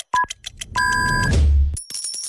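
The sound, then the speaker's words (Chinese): Electronic time-signal beeps marking noon on a Chinese radio station: short beeps and a longer held tone, then a bright higher tone, mixed with other jingle-like effects, with no talking. “河南经济广播 FM103.2 准确对时，现在是北京时间12点整。”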